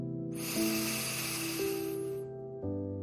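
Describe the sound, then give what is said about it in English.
A slow, deep breath comes through as a long airy hiss lasting about two seconds, over a soft, sustained musical drone that shifts pitch. “One more deep breath in”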